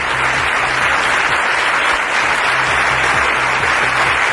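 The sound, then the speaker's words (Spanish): Long, dense applause fills a city council plenary session in Alcorcón, an ovation honouring a late councillor during official mourning. The clapping holds steady and loud throughout, with no voices over it. “con esta ovación, el Pleno del Ayuntamiento ha despedido a Jesús Santos, concejal del municipio y exdiputado de la Asamblea de Madrid, fallecido este fin de semana.”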